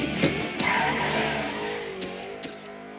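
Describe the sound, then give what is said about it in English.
A car engine revs hard while shifting quickly through the gears: a loud, buzzing roar whose pitch shifts several times, punctuated by short, sharp bursts. “How do you shift through the gears so fast? You mean like this?”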